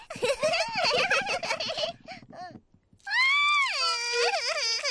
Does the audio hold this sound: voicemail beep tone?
no